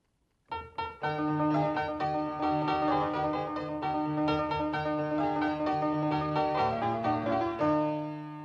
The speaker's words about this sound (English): What you just heard now was a Broadwood piano from the middle of the 19th century, and I think it was the very best time of the Broadwood pianos.